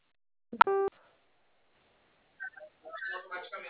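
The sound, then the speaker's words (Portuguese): A single short telephone keypad tone as the zero key is pressed during a phone call, clear and brief, followed after a pause by faint speech. “Tecle zero para saber mais informações.”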